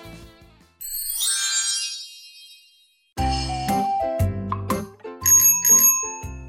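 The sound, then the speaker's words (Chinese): A bicycle bell rings as a child rides up on a bicycle. Bright metallic rings chime in a few bursts, with a short pause between the first ring and the later ones. “哎，有小朋友骑脚踏车过来了。”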